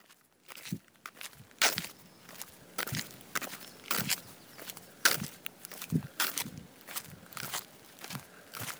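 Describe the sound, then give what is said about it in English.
Crunchy footsteps walking at an early-morning pace along packed sandy roads in Montalivet, France, among dunes; many steady, distinct steps with gritty crackle on each footfall. “It's early in the morning, and uh, I'm walking. I'm walking along the roads of Montalivet. Most of the uh, area is made of dunes, the uh, and sand, and the roads though are well packed down”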